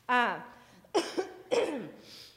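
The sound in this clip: Coughing from allergies: three rough, voiced coughs separated by short pauses, loud and close, the first one longest.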